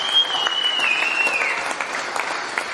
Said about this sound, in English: Let's give Jerry a big hand and welcome up here.